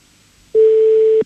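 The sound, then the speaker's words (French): A single telephone ringing tone on an outgoing call, a loud, steady, mid-pitched beep lasting under a second that starts and stops abruptly. “Ça sonne. Est-ce que ça va décrocher?”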